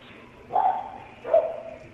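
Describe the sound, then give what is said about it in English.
A dog barking inside a business where a customer brought it in: two short, fairly faint barks, evenly spaced over low background noise. “There's a dog in here. There's a dog in there.”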